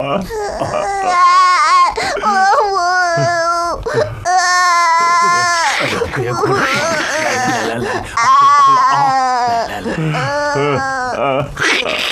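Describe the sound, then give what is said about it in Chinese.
An elderly man sobs and wails loudly at a Buddhist rite for the dead, his crying voice rising in long, tremulous bursts that run almost continuously with only brief breaks. “你别哭了，你有什么事尽管说嘛，哭什么呀？”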